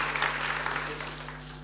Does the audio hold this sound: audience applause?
yes

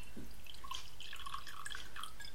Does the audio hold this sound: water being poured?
yes

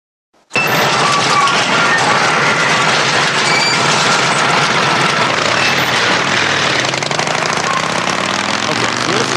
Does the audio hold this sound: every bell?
no

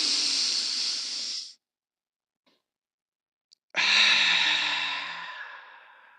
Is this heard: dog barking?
no

